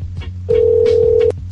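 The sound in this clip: A telephone gives a single steady electronic tone lasting under a second, clear and loud against a low background hum, with brief faint sounds before and after.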